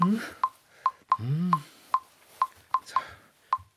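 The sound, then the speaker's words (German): A mobile number is dialled on a telephone, giving a series of short, evenly pitched keypad beeps at an uneven pace. The beeps are fairly quiet and heard alone. “Ich ruf gleich mal an.”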